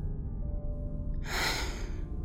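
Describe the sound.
A single soft puff of breath blows out one of two lit candles in a dark, silent apartment. A short breathy whoosh rises over a faint, low background hum, then fades.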